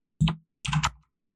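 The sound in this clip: Typing on a computer keyboard as a number is entered: two short, quiet clicky bursts with a brief pause between them, and nothing else around them.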